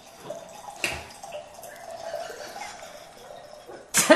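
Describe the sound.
A drink being poured into a glass: a faint, steady liquid trickle that runs for a few seconds, then ends in a brief, louder burst.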